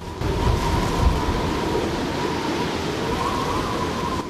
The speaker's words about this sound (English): The bleak, rocky slopes rear up around the glacier, the wind whipping powdered snow across their surface. The wind also blows the powdered snow over Joe's anorak